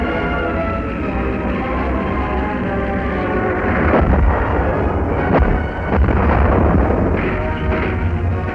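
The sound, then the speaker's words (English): Shellfire explodes against a French tank in a 1940 battle near the Somme crossing. A continuous heavy rumble carries a few louder booming bursts. “A French tank is hit.”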